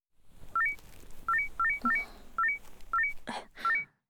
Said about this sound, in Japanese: 何ですか、その怒涛の通知音は。